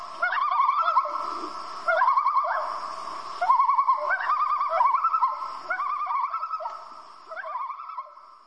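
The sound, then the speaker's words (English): A common loon gives its territorial warning tremolo, a wavering, laughing call near chicks, repeated in several rapid quavering phrases with short pauses between them. “Loons are also known for their territorial or warning tremolo call if you get too close to their chicks. Another name for it is the crazy laugh.”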